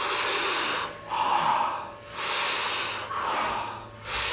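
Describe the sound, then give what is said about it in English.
Rhythmic power breathing, with strong breaths pulled in through the mouth and soft, partial exhales letting out about a third of the air. Airy rushes alternate in a steady cycle, repeated a few times, with no talking. “taking about 40 power breaths into the body through the mouth. And the exhale is a soft exhale, so it's not a full, complete exhale, just about a third of the breath out.”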